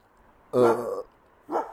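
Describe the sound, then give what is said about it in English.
Dogs barking in reaction to fireworks: two loud barks, the first longer and fuller, the second shorter, rising over a quiet background. “Dogs are reacting to the fireworks.”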